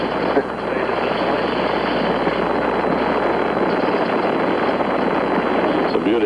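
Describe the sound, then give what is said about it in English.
Saturn V rocket engines roar at liftoff in a dense, unbroken rumble. The loudness stays constant for about six seconds, with a thick low-end growl beneath a hissing upper roar. “We have commit and we have liftoff at 2:13. The Saturn V building up to 7.6 million pounds of thrust, and it has cleared the tower.”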